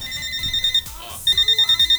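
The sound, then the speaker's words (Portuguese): Telephone ringing in a radio studio: a loud electronic ring of rapid trilling pulses, sounding in two bursts separated by a short pause. “E aqui o telefone toca o dia inteiro,”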